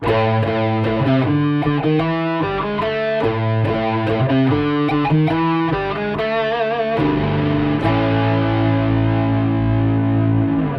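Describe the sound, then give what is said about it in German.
A heavily distorted radio jingle with chorus-like effects: loud, continuous music with rhythmic, stepping harmonic notes that settle into a sustained held chord for the last few seconds. “dieses Jingle vom André Jonas spielen. Das hört sich dann so an.”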